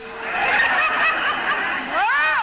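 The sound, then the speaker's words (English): Three-day-old hen turkey chicks peep in a small crate: many high, overlapping cheeps in a busy, continuous chorus, with a few clearer arching chirps near the end. “Well, that's what you've got in that crate. 10 live, healthy turkeys. All 3 days old.”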